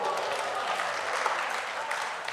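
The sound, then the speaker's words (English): Audience applause from a crowd at a live game event, a dense, steady wash of clapping that fills the whole clip at an even, fairly loud level. “Give him a round of applause, people.”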